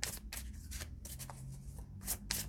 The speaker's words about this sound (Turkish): Önce kendime bir kart mı seçsem? Şuradan bir tane kendime çekeyim.